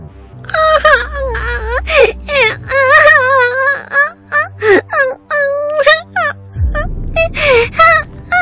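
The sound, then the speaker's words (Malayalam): A young princess crying in an animated fairy-tale story: high, wavering wails and sobbing cries in a series of loud bursts, with a short noisy rush before the last cries. “പ്രീതി രാജകുമാരിയുടെ കരച്ചിൽ കേട്ട് മറ്റു രാജകുമാരിമാരും അവിടെ എത്തി”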